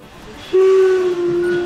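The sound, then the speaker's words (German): A steam whistle sounds from a historic narrow-gauge steam locomotive on the island of Rügen. One loud, steady, mid-pitched blast starts about a third of the way in over a low rail rumble and holds to the end, with one brief dip. “Wir sind 365 Tage mit einer Dampflok unterwegs und fahren damit über die Insel Rügen.”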